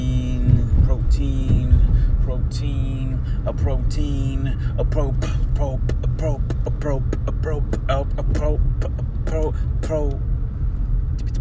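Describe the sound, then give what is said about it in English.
Steady low engine and road rumble from inside a moving car on the way to a grocery store, forming a continuous drone throughout while a person talks over it. “Bam, baby, I'm in a hot-ass car. I'm on my way to Trader Joe's.”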